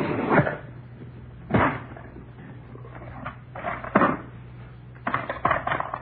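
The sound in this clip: A taped-shut cigar box being handled and opened: a few dull knocks and clunks with scraping and rattling between them, over a low steady hum.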